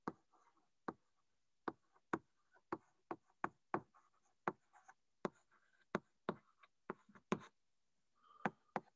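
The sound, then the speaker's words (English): Writing on a board during a physics lecture on space-time: many sharp, faint taps and short strokes in an irregular rhythm. “I'll write it this way for now.”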